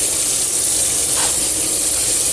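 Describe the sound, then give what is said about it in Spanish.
Steady water rushing from two opened taps, newly installed fixtures being tested on a building site. A continuous, even hiss runs loud and unbroken from start to finish, with no voices. “Abrimos también grifos, abrimos los dos grifos para comprobar que funcionan perfectamente.”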